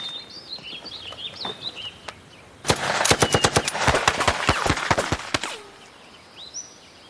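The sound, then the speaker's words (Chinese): A machine gun fires in a long burst of many sharp, loud cracks packed close together over about three seconds, with birds chirping faintly before and after the shots. “机枪，给我突突。”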